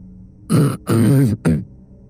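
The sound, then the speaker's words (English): A man clearing his throat: three rough, voiced rasping pulses in quick succession, the middle one longest, loud and alone without speech. “cleared his throat”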